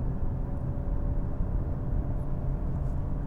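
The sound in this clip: A car engine drones during a test drive with gear changes. It holds a steady, low rumble at constant loudness with no clear shifts in pitch, and no one speaks over it.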